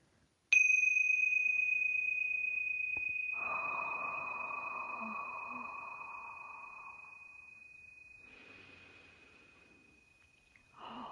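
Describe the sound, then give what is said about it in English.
Tingsha bells ring with one bright, high metallic strike whose pure tone sustains and slowly fades over about ten seconds. Soft breathing sounds underneath, and another strike begins right at the end. “I'm going to just ring the Tingsha bells to clear out any energy and create a pure, sacred space”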